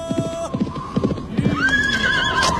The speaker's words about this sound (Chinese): 你看前面过来个骑马的人。